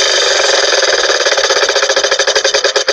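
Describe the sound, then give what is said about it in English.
Prize wheel spinning as a sound effect: a loud, rapid ratcheting of clicks sounds alone and gradually spaces out as the wheel slows toward a stop. “we're going to spin the wheel of languages one more time. Let's find out where it's going to take us.”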